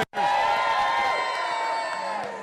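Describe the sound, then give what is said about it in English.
Boisterous crowd cheering and whooping at Brothers Patty Shack in St. John's County, gathered for a live wrestling-themed show; the loud, sustained roar with shrill tonal cries bursts in after a moment of silence and carries on steadily. “We are here at Brothers Patty Shack in St. John's County in Rural Golf Village to a pretty boisterous crowd, I assume,”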